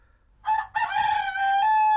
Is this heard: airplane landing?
no